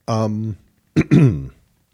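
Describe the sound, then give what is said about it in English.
A person clears their throat: a short voiced hum, then after a pause a louder, rougher rasping burst that trails off, with no other talk. “oh, sorry. Got a little something in my throat there.”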